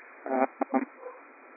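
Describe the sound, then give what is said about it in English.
Excited dogs give a few short, high whining yelps close together, followed by a fainter one. The sound is thin and narrow, as if over a phone line. “So, my dogs are getting all excited.”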